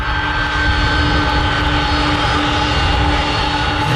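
A jet airplane flies over near Schiphol, its engine roar loud and steady throughout, a broad rushing drone with sustained whining tones.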